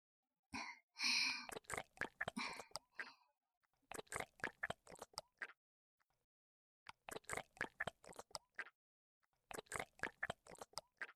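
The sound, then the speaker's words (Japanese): Wet squelching of a silicone masturbation sleeve slick with lotion, squeezed and worked by hand, comes in four bursts of rapid, rhythmic squishes separated by short silences. “このように、人をこねるように、オナホールを動かさせていただきます。”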